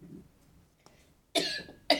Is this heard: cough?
yes